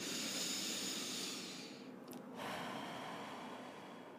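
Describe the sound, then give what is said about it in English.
A slow, deep breath is drawn in and let out as a long, soft, airy hiss, with a brief pause between inhale and exhale. “I just want you to take this moment and just take a deep breath.”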